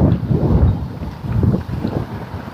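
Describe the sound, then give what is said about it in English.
A gusty morning breeze blows outdoors during a walk and buffets the microphone. It makes a steady, low, rumbling roar that swells and dips unevenly, with no voices. “It's quite a breeze this morning. It's come up a lot in the last 10 minutes.”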